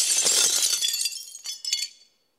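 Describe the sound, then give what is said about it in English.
Glass shattering as a sound effect, a bright, high burst of breaking and tinkling that thins out, with a few last clinks before fading to silence within about two seconds. “And I know that sound is shattering”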